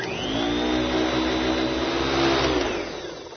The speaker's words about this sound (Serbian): Još sam kupio i nov novcat usisivač koji najbolje na svetu usisava prašinu.